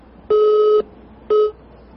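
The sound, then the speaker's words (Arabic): A telephone line tone after a phone-in call drops: two steady electronic beeps with no talk, the first about half a second long, the second cut shorter after a brief gap. “طيب انقطع الاتصال، معنا اتصال آخر”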